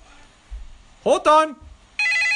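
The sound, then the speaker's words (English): A telephone rings, a bright, steady electronic trill that starts near the end after a short burst of voice. “Oh, that's the phone!”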